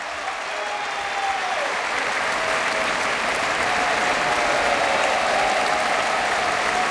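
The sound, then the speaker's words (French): A concert audience applauds enthusiastically after an orchestral and choral performance. The clapping is dense and sustained at a steady loud level throughout, with no pauses. “Vous l'entendez, le public de la Philharmonie est enthousiaste”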